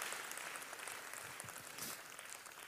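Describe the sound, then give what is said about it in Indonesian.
A church audience applauding during a sermon: faint, even clapping with a hissing texture that holds steady for the whole stretch. “Tepuk tangannya yang paling meriah buat Yesus Tuhan kita.”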